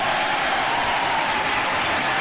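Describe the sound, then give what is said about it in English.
A short applause sound effect marks the end of a comedy list segment: a brief, even burst of clapping heard on its own. “The applause.”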